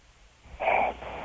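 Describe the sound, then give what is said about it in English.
A sleeping person with sleep apnea snores, drawing one loud, rasping, wheezy breath after a quiet stretch. The breath is followed by a softer, lingering rasp. “Now you can hear some big ones. Really? Yeah. We got big set rolling in? Yeah. Oh, my God. Oh, my God. That's sleep apnea, dude.”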